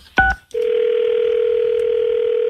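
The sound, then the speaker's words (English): A telephone line tone as a cold call is placed: a short click and burst, then one steady, loud tone held unbroken for about two seconds, with no talk. “I'm going to call Jeff Jarrett now. Are you just going to cold call this guy? Yeah, I mean, he should be sleeping.”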